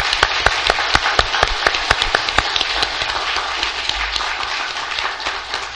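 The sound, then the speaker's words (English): A church audience applauding newly baptized members, with many hands clapping steadily and sharp individual claps standing out. The applause runs throughout and eases slightly toward the end. “我们给他们个掌声，好吧？”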